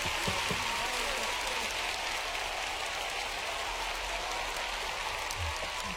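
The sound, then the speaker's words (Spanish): An audience applauds in a steady, fairly soft wash of clapping that holds at an even level for about six seconds. “Un aplauso.”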